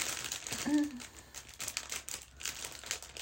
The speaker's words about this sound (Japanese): これちょっと内袋開けるのにハサミが必要かな、ハサミが必要かな。